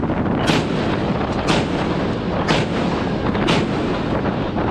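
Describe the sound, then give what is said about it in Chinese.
A warship's main gun fires a four-round live salvo during a sea exercise: four sharp, booming shots at even intervals of about one second, each a broad burst standing out over a loud, constant rushing background. “同时释放干扰弹，主炮系统进行临战准备。 接收目指，一组四发，放。”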